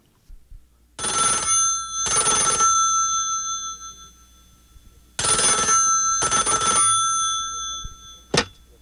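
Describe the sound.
A telephone rings in two bright, metallic double rings with a pause between them, followed by a short sharp sound at the end.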